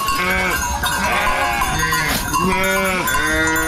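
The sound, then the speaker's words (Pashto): A flock of hundreds of sheep bleats continuously in a drought-stricken desert area of Qarabagh district, Ghazni, many loud overlapping calls rising and falling over one another throughout. “شاوخوا دېرش کلن شایسته خان کوچی د غزنی قرهباغ ولسوالۍ په باغ یا تر دښته کې د سلګونو پسونو رمه پیایي”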